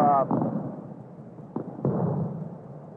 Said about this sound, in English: while the rockets resound in the background